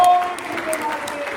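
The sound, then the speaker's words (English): A church audience clapping in praise to the Lord, a dense, loud patter of many hands with crowd noise mixed in, sustained through the whole moment. “Can we give the Lord a hand clap of praise in this place?”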